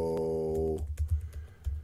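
Typing on a computer keyboard: after a short sustained tone, a quick run of soft, irregular key clicks.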